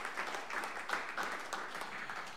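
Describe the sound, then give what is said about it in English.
Faint audience applause at a live acoustic music show, a brief, uneven patter of many hands with small swells, continuing steadily without voices. “how about one more round of applause for Nick”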